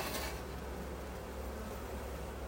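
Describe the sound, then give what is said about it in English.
Honey bees buzzing around a hive's syrup top feeder make a faint, steady, continuous drone with no talking. “I've got some bees that have taken the dive into the syrup top feeder that I'm getting out right now.”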